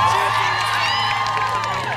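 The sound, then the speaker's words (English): Audience cheering with whoops and high shouting voices, a loud, continuous crowd roar with wavering vocal tones that holds for about two seconds. “So cheer not for us, but for yourselves.”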